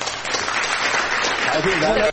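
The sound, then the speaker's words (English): Audience applause forms a dense, even wash of clapping that holds steady throughout, with a voice starting to speak over it near the end. “Yes, applause.”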